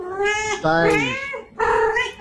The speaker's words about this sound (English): What colour is this cat?